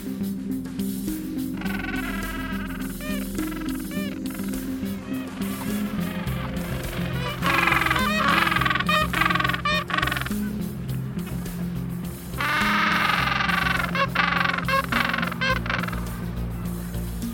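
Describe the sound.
Loud, overlapping braying calls from a colony of nesting Gentoo penguins on an island. Harmonic squawks come in several bursts over a constant din of the colony.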